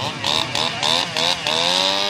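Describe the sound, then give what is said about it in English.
A chainsaw cuts a 5.5 by 2.5 foot rectangular hole in lake ice. Its buzzing engine surges in repeated rhythmic pulses, then holds a steady whine that lowers slightly in pitch. “pulls out his chainsaw and cuts a perfect 5.5 by 2.5 foot rectangle in the ice with a slight angle for better visibility.”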